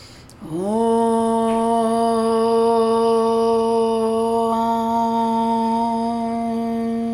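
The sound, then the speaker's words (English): A single long chanted Om, one steady low voiced tone rich in overtones, begins sharply and is held evenly for about six and a half seconds with no talk. “And let's inhale for one sound of Om.”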